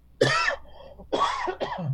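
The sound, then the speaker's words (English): A person coughing a few times, with short, harsh, throat-clearing bursts in quick succession, loud and alone. “That was not a COVID cough.”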